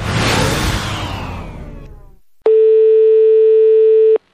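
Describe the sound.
A telephone line tone plays as a call is placed to a friend. A fading noisy rush gives way, after a short silence, to one steady, loud, unbroken mid-pitched tone that lasts under two seconds, with no voices.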